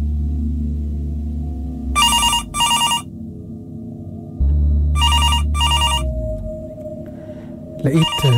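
A telephone rings in two double bursts, each pair a short, bright, electronic trill separated by a pause, over a low steady background.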